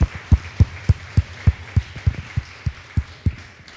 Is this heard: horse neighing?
no